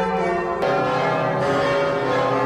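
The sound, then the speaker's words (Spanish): Church bells across France peal together in honor of a papal visit, a dense, continuous wash of overlapping metallic tones with fresh strikes that keep the ringing full and steady throughout, with no voices. “Hoy a las 10, las campanas de todas las iglesias del Estado galo han repicado en honor a León XIV.”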